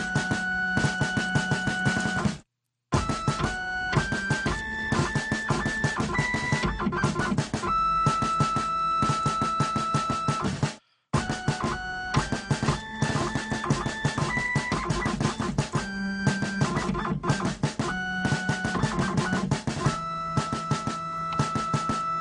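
A Hewlett-Packard scanner's motor whines out a Christmas tune as a piercing run of stepped, pitched beeping tones. The melody plays steadily and loudly, broken by two brief silent gaps.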